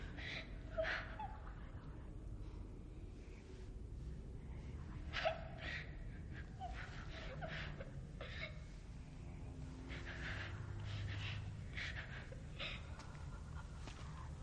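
A woman breathes heavily and unevenly in agitation while watching a door, a faint run of sharp gasps and ragged inhalations with one stronger catch of breath, alone.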